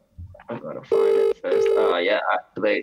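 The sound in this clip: A mobile phone rings in two steady, bright tonal bursts of about half a second each, with people talking just before and after.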